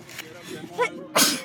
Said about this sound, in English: Oh, I hate sneezing.